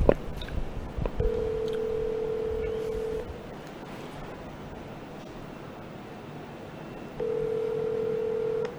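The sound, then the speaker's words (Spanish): Telephone call being placed: two steady ringing tones, a long one and then another after a pause, over faint background hiss, with a brief click at the start. “vamos a hacer la llamada con la síndico municipal, la licenciada Vanessa Piña”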